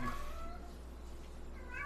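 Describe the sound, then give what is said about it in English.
Faint meowing from a pet cat, with a couple of short, high, wavering cries at the start and end over a low steady hum. “That's our cat”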